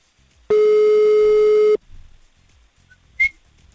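Ringback tone of a telephone call going unanswered: one loud, steady, buzzy tone of about a second that cuts off cleanly, then quiet with a brief high chirp near the end.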